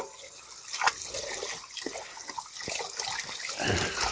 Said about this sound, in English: Let me wash off my hands here. I'm just going to let it sit there for a minute or two while I wash off my hands and wash out.